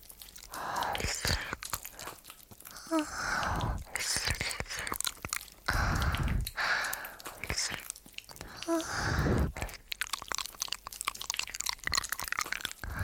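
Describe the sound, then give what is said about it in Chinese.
Someone crunches into food as they start eating. Several crisp, loud bites and crunches are followed by chewing, in irregular bursts separated by short quiet gaps. “那么，我要开动了。”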